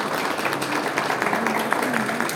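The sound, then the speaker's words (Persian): Dense, steady clapping from an audience applauding a provincial governor after being asked for a hearty welcome, continuous at an even level for the whole stretch with a few voices faintly underneath. “من خواهش میکنم جانانه آقای استاندار رو تشویق کنید به استقبال صحبت های ایشون”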